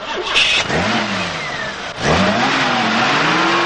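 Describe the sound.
A car engine starts and revs hard as the getaway car drives off. Two strong surges rise in pitch, the second following a brief dip near the middle, and then a loud, sustained engine roar continues.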